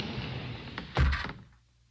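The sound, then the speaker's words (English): A hidden wall in a candlelit gallery sliding closed, heard as a faint, short muffled scrape that ends in a dull thud before the sound fades to near quiet. “the wall behind them slid closed”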